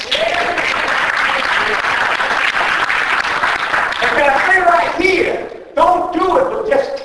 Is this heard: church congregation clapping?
yes